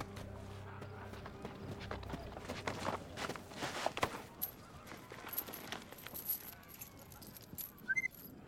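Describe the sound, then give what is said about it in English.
Running footsteps of a person dashing forward at night outside a tented desert encampment, a faint, quick series of soft footfalls over a low background rumble. “runs forward to retrieve the weapon”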